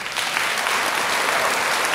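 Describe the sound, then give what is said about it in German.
Long applause from an audience at a book fair in Frankfurt, on a literature stage. Dense, steady clapping holds at an even loudness throughout with no gaps. “Langer Applaus für Gisèle Pelicot.”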